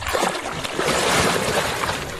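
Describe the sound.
A firefighter steps down into water during a drowning-prevention demonstration, and the water sloshes and splashes in a noisy, continuous wash that swells briefly partway through.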